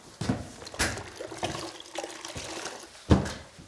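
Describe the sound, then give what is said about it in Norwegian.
Water splashes and sloshes as someone washes a corridor floor: several uneven wet surges, with the loudest near the end, and softer swishing in between. “Få tatt litt gulvvask. I stedet vasker hun gangen med tomme soverom på hver side.”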